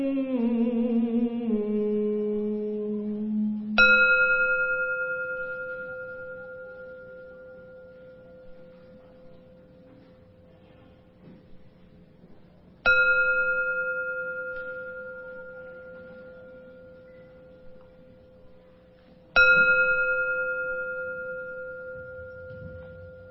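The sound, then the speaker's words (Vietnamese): A meditation bell is struck three times, widely spaced. Each strike rings out as a clear, bright tone that fades slowly into near silence before the next. “Tiếng chuông huyền diệu đưa về nhất tâm.”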